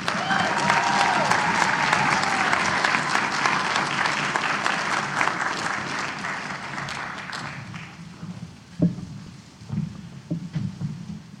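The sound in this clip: Loud, dense audience applause welcoming a keynote speaker at a memorial fountain ceremony on a college campus. It holds strongly for about seven seconds, then dies down to a few scattered sounds as someone starts to speak.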